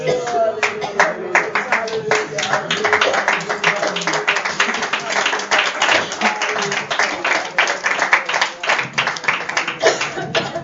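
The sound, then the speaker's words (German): A church audience claps along in a steady, even beat of many hands, brisk and loud throughout, with voices heard beneath the clapping. “Ich denke, wir dürfen den Applaus noch ein bisschen größer machen. Ja, das machen wir mal. Den Applaus.”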